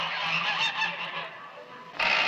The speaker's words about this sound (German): Laut schnatternde Gänse werden in einen Käfig geworfen.